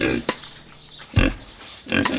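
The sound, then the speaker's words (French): A pig grunts and oinks in a few short, rough bursts separated by brief pauses. The grunts are fairly loud and heard alone. “Ce petit cochon fait.”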